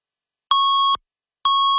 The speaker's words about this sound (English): 680 News Time at the double beep.